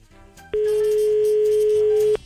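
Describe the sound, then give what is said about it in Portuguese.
A telephone tone on a phone-in line after the call drops: one unbroken, steady mid-pitched electronic beep lasting about a second and a half over quieter background sound. “Caiu a linha aqui, ó. Caiu a linha.”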